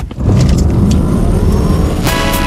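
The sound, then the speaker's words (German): A Ford Puma car driving: a loud, continuous roar of engine and road noise that holds steady throughout, with no voices over it. “Vereinbaren Sie jetzt einen Termin für eine Probefahrt bei Ford und erleben Sie Abenteuer statt Alltag im Ford Puma. Verfügbar als E-Modell oder Benziner.”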